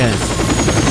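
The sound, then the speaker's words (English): Double-rotor military helicopter: a loud, continuous, dense throbbing roar with a rapid pulsing texture fills the whole second, and a voice speaks briefly over it. “That standard double rotor sound.”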